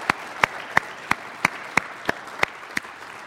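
Audience applause at a gathering: steady, evenly spaced claps in unison, about nine sharp hits, over a low wash of background noise.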